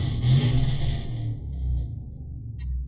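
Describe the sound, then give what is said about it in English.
A car racing through a neighbourhood street gives a loud, rushing engine roar that is strongest at the start, then fades and thins to a lower rumble as it passes. “Someone racing in your neighborhood now?”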